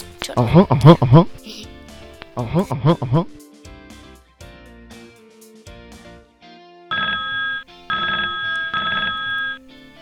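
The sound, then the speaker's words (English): A telephone ringing in a house: a couple of loud, rapid trilling bell rings, followed later by a steadier run of bright electronic ringing tones with short gaps. “Oh, just a second. That's the phone.”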